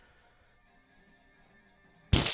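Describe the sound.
Gunfire in the film Kingsman: a quiet stretch with a low steady hum gives way to a sudden, loud burst of shots that keeps going at the very end.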